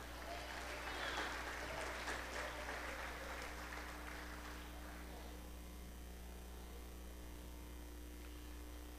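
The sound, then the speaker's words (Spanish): An audience applauds during a Good Friday sermon. The clapping is a loud, dense patter for about five seconds, then fades away, leaving a steady electrical hum that runs under the whole clip. “Denle un aplauso a Cristo.”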